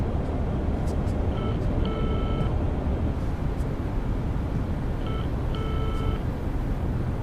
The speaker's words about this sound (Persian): اگه بخوای میتونیم همین الان بهش زنگ بزنیم.